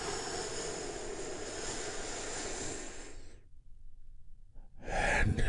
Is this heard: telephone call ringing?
no